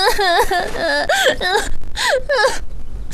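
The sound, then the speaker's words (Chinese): A person crying in loud, wavering sobs and whimpering wails, with several strained bursts broken by short catches of breath. “别哭别哭”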